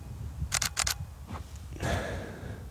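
Camera shutter clicks as a photo of a cave is taken: a quick cluster of a few sharp clicks, followed by softer handling noise.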